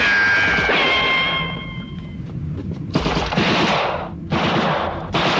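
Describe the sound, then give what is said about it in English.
Automatic gunfire from guards shooting from a rooftop, heard as loud, sustained bursts of rapid fire separated by brief gaps. “More guards shoot at Mike and Lewis from a rooftop.”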